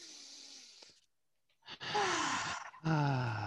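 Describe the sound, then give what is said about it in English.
Deep breaths taken together by people, heard as a few breathy rushes of air. The louder later ones turn into voiced sighs that slide downward in pitch. “let's take a big deep breath together”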